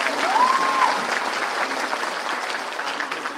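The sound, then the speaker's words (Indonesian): Audience applause follows a motivational talk: dense, steady clapping that holds at an even loudness for a few seconds without dying away. “Tepuk tangan untuk kita semua.”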